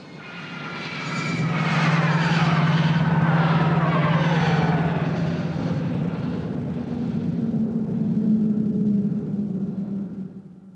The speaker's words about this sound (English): The first one is the Jedi Starfighter flyby.